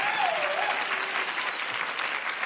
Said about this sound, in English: Give them a hand, everybody.